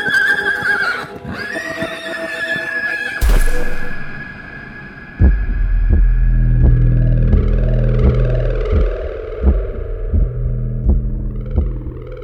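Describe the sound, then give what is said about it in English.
A horse neighs loudly in a high, wavering whinny as it bucks its rider off into sand. A sudden burst of noise and a stretch of low, rumbling thumps follow. “That's when my horse neighs and bucks me off”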